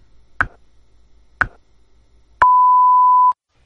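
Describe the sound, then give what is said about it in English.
A radio time signal at the top of the hour: two sharp ticks about a second apart, then a clear, steady mid-pitched beep lasting nearly a second before cutting off. “At the tone, we've reached the top of the hour.”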